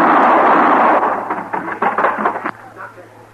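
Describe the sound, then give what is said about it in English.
Several sharp gunshots crack in quick succession during target shooting at the wires holding up a large picture of Valley Forge. The reports ring out over a noisy background, then stop. “Tolerable shooting, eh, Zeno?”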